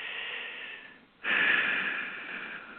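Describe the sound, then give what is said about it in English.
A person takes deep breaths: a long, airy rush of breath fades out, then after a short pause a second, louder breath swells and slowly tails off. “Take a breath. Breathe.”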